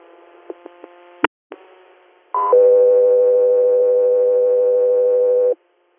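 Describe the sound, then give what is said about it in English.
Radio dispatch alert tones for an air medical transfer service: a few faint clicks, then a short higher tone that drops into a long, steady, loud lower tone lasting about three seconds. “stand by for tones.”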